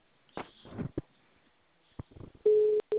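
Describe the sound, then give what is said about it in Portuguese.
A telephone is handled while a call is dialed: a few scattered clicks and knocks, then a steady mid-pitched electronic tone in two bursts, the second one shorter. “Avisa o pessoal que vai fazer ligação. Primeiro vou ligar pro cliente.”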